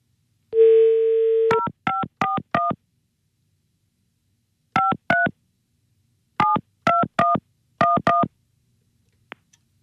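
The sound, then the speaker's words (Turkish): A caller rings someone's mother on a telephone: a steady dial tone, then several bursts of short push-button key tones, and a faint click at the end. “son kez annenizi arıyorum bitiriyorum”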